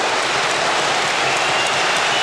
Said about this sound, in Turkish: Genç Yunus Akgün'ün şutu tribünlerden büyük alkış aldı.